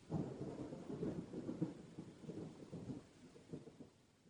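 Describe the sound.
Steady rain pours alongside deep rolling thunder, a dense, loud, continuous hiss over a low rumble that swells and eases throughout without any break.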